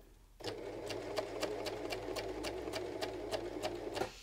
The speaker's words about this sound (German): Ich, ich nähe hier gerade meine zweite Manschette und bin gleich wieder am Start.